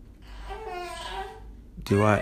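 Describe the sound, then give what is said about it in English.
A young daughter babbles softly in the background with sing-song, high-pitched vocalizing. A louder, brighter voice bursts in briefly at the very end. “My daughter in the background.”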